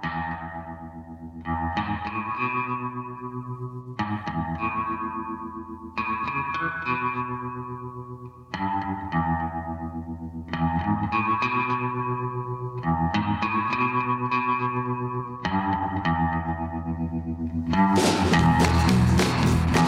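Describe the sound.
Twangy semi-hollow electric guitar with tremolo, heavy reverb and a Bigsby vibrato arm plays repeated phrases of sustained, wavering notes, and a bright, noisy crash joins at the very end.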